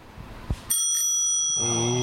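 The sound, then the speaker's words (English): A bicycle bell, rung to greet passing cyclists, gives one bright metallic ding that keeps ringing with a shimmering tone for about a second after a soft knock. “We got this bell here. We want to engage with the cyclists. So we're trying to get the double ding going. Where we ding at you and you ding at us.”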